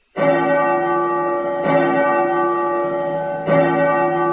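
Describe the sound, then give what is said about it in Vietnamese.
Temple bell at a monastery rung urgently: three heavy strikes, evenly spaced, each followed by a long, loud ringing hum with rich overtones that carries on until the next blow. “Bỗng nghe từ phía Thiếu Lâm tự tiếng chuông vang lên dồn dập, nghe thật khẩn cấp.”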